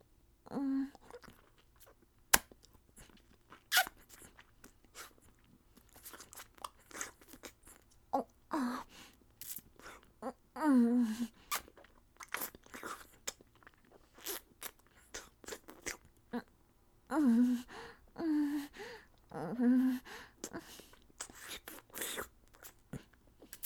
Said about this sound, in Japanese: ご褒美としてキスをしてあげます。